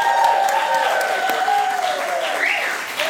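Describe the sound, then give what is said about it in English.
A studio audience at a panel game show applauds steadily, with dense clapping and rising, wavering whoops cutting through the noise throughout. “Really fabulous wooing, by the way.”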